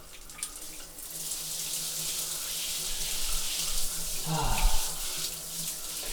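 Shower water running at a neighbour's place, a steady, fairly faint rushing hiss that continues without pause and swells slightly toward the end.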